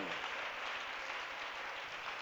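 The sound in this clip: Applause from a church audience during a worship service, a dense, even patter of many hands clapping at a low, steady level with no break.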